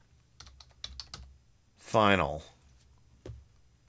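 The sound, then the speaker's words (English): Typing on a computer keyboard: a few light keystroke clicks, then a short voiced sound, then one more click. “Type in Richard Gere.”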